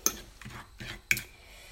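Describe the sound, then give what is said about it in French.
Banana being mashed with oil in a bowl makes faint, soft scraping and squishing strokes, a few evenly spaced pushes with quiet gaps between them and no voices. “l'huile qui se rassemble avec la banane. Ça fait travailler les bras aussi donc j'écrase toujours.”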